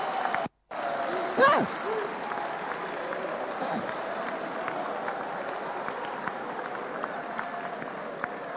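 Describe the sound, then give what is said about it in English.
Sustained applause rises from a crowd at a gathering where the vice president conceded and congratulated Mahama. Steady, dense clapping runs throughout with voices over it. “Come on, put your hands together.”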